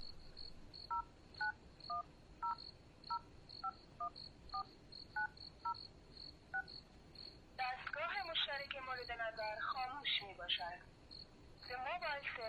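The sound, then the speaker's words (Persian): Touch-tone beeps as a telephone number is dialed: a steady series of short dual-pitched keypad tones over a faint high chirping, then a voice speaking. “باش که از نو به تماس شم”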